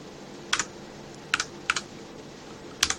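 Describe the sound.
Keys clatter on a computer keyboard as a search word is typed: a few short paired bursts of crisp clicks separated by pauses, faint against a low steady hiss.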